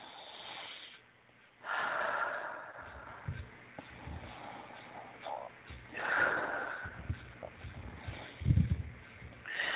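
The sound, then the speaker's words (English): Slow deep breaths taken during a guided healing meditation: a few long, airy inhales and exhales with a light snorting rasp, moderately loud, with quieter pauses between. “And take 3 nice deep breaths.”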